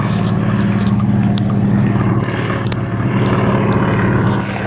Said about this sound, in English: That is a crop duster.